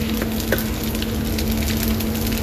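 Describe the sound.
An egg frying in a pan gives off a steady, loud sizzle with scattered small crackles and pops throughout, alone without talk.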